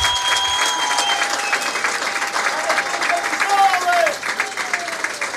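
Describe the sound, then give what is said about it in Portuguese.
Crowd applause at the Fonte da Senhora football ground as a Benedita player leaves in a substitution, steady sustained clapping with talk running over it. “Penso que é audível os aplausos do público aqui do Fonte da Senhora para a despedida”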